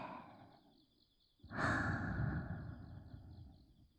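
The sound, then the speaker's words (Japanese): Slow human breathing: a soft breath, a brief lull, then a long, heavy exhale that rises loudly and gradually fades, with no speech. “ほら、吸って、吐いて、”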